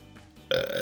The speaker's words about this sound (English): I wanted that to be the first sound you hear from me is just a burp into the microphone.